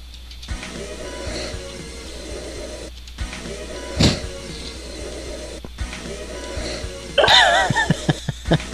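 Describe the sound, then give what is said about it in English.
Breathing comes through a Hangouts video call as a steady, noisy hiss in several long stretches, broken by short gaps, with scattered clicks and small bursts near the end. “Is that... Can I guess who's breathing there?”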